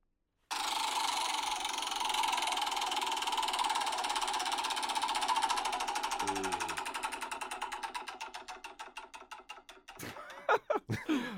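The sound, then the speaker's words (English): A roulette wheel spins as a sound effect, starting as a steady whirring rush that turns into rapid ticking clicks. The clicks gradually slow, and a few sharper knocks come at the end. “Let me just get the roulette wheel. How long have we got? We're doing all right. We've got 21 minutes. So let's go. Next topic of conversation will be. Let's spin the wheel.”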